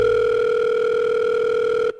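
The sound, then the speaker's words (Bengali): Steady, even telephone tone from a phone call being placed, held at one pitch for about two seconds and then cut off abruptly, with no voices. “পরদিন সৌরভ ওকে phone করল।”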